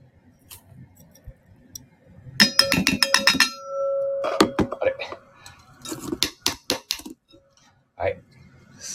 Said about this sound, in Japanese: まず砂糖が大さじ1と半、はい、入れます。